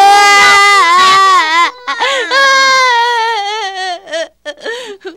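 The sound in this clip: A kindergarten child with a toothache cries loudly, in long wavering wails with a rising and falling pitch. These break into shorter sobbing gasps toward the end.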